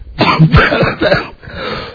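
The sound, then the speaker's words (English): A coughing fit brought on by laughter: several harsh, rapid coughs and throat-clearing bursts crowd the first second, then ease into a softer, rasping tail. “Well, when I really laugh, I'm sorry, I get the coughs.”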